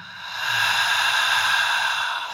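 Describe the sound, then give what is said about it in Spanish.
A deep exhale through the mouth during a yoga breathing exercise, heard alone. One long, breathy rush of air swells gently and then eases off. “Inhala profundamente todo por la nariz. Exhala todo por la boca.”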